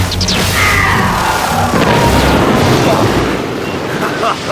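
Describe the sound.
A laser cannon fires: a loud, dense, crackling blast with sharp electronic chirps, changing abruptly partway through, then roaring on before easing slightly toward the end.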